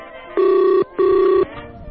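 Ringback tone of an outgoing telephone call: two steady, buzzing rings of about half a second each, separated by a brief gap, heard alone with no voices.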